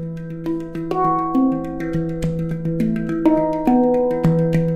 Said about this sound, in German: bei der Hung das Blech durch Finger und Hand zum Vibrieren. Da das Blech den Ton auch viel länger hält als ein Trommelfell, klingt ein Hung viel länger nach und auch deutlich weicher.